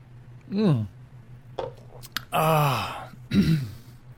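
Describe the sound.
Someone clears their throat in a few rough, voiced bursts, with one longer raspy rumble among them. The bursts are separated by short quiet gaps.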